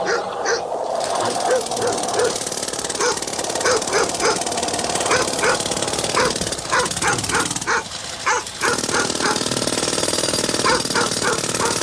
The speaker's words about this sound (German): ich höre nur das Hundegebell